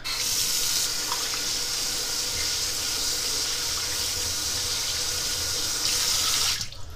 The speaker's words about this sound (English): Hold on, I'm about to turn on a sink.